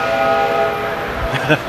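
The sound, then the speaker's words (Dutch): A model train departs on a track that loops around shops in a former railway station, giving a steady whistle-like tone over a low rumble, with a short clatter near the end. “Kijk, de trein die vertrekt weer.”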